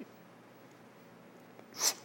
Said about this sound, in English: I would just demonstrate. It is inhale, full inhale, and then it's relaxation.